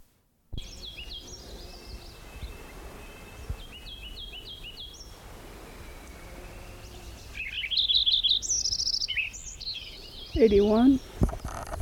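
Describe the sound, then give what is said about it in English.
Lincoln's sparrow song: bright, high chirping phrases and quick trills arrive in a few separate bursts over steady low background hiss, growing louder and busier toward the end. “Lincoln Sparrow number 9 again.”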